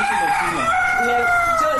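A rooster crows in a chicken coop in Tenkodogo: one loud, drawn-out, strained call whose harmonics slide gradually downward over about two seconds.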